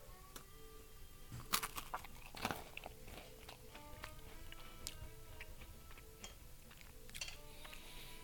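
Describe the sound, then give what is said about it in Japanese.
Biting into and chewing a macaron with fresh cream from a confectionery workshop in Osaka's Minato ward. A few faint, crisp crunches are followed by soft, quiet chewing sounds, with no talk. “マカロンを取って、えー、ちょっとかじらせていただきます”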